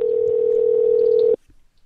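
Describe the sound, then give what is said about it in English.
A telephone dial tone heard while a call is dialed: one loud, steady hum held at a single pitch for over a second, then cut off abruptly into near silence. “Did you want to take it? I'm dialing it.”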